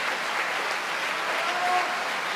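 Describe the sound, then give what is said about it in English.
Audience applause at an opera performance as a soprano and the cast stand on stage: a dense, even wash of many clapping hands that fills the short span without a break. “She applauds the other performers on the stage”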